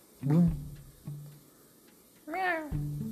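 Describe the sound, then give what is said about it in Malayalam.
A cat meows twice by the bank of a stream, two clear rising-and-falling wails separated by a quiet gap, with a faint low hum between them. “ഒരു പൂച്ചയാണ് കേട്ടോ”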